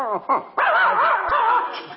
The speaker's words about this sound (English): it's our dog.